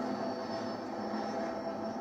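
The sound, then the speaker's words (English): An airplane taking off gives a steady, dense roar of engine noise with a thin, constant whine on top and no clear change in pitch. “This is just a takeoff. Once we're in the air, he'll have a seizure.”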